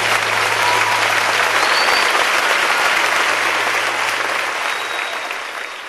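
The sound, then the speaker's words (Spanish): Congregation applauding during a church worship service: dense, loud clapping that holds steady throughout and tapers slightly at the very end. “Dale un fuerte aplauso a Jesús.”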